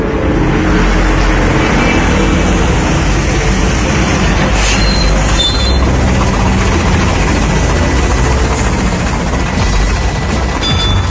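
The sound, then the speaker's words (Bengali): Engines of military vehicles outside give a continuous, heavy low rumble with a steady idling drone and no clear changes. It is fairly loud throughout, and no one speaks. “বাইরে মিলিটারিদের গাড়ি।”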